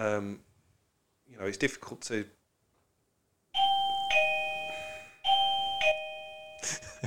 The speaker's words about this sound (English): that is the doorbell. I'm not sure why we've got a doorbell in the studio.